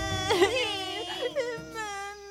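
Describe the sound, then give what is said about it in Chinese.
A voice imitates a little tyrannosaurus crying in a children's story set in a dinosaur nursery. The whimpering, wailing cry wavers up and down in pitch, with a few sobbing swells. “乐乐拿着各种玩具、饼干，想要让小暴龙安静下来，但是小暴龙还是一直哭。”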